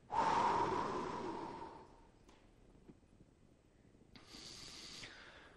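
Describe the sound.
A room full of listeners exhales together after holding their breath, a faint, broad breathy whoosh that fades over about two seconds before a quieter rush of air returns; no speech.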